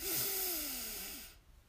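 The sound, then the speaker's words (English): A long, deep inhale taken during a guided breathing meditation, the third and final breath. It sounds as a steady, breathy rush of air lasting just over a second, then fades into near silence. “third and final breath in together. Let's breathe in”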